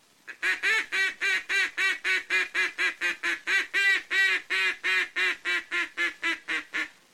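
Quacking from a duck call, blown as a come-back call to a flock turning toward the hunters: a long, loud series of more than twenty evenly spaced, rhythmic quacks at a steady pitch.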